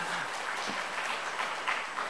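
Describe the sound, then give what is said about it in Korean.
A church audience gives a round of applause during a Bible lesson. The clapping is soft and dense and holds at an even, fairly faint level throughout. “여러분 정말 잘하시네. 박수 한번 하겠습니다.”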